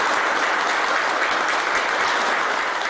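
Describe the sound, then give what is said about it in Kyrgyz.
Sustained applause fills the room after Turkmen president Gurbanguly Berdimuhamedov presents his book at a security committee meeting. The clapping is dense, steady and loud throughout, with no voices standing out. “Кол чабуулар узакка созулду.”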